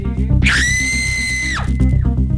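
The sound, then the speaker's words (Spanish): A loud, sustained high-pitched scream in a studio, holding one piercing tone for about a second before breaking off, over a low steady background bed. “Es que me, ese grito. ¿Y ese grito de qué?”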